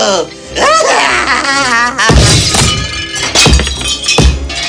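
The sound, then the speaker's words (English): A clock being smashed and destroyed: a few heavy crashing, breaking impacts mixed with loud voices and tonal sound. “Oh, the clock looked so beautiful even as it were being destroyed.”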